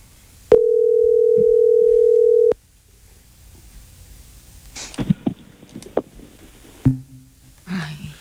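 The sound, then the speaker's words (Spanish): Telephone dial tone after a call is answered and hung up: a steady, single-pitched hum holds for about two seconds and then cuts off, followed by a few faint clicks and low handling noises. “Contestó y colgó. Contestó y colgó. Le descargó.”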